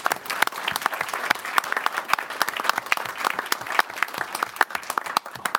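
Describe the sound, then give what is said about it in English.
Loud, dense applause for a championship sports team, with many rapid overlapping claps forming a continuous crackle that stays strong from start to finish, without talk. “So let's give them a round of applause for”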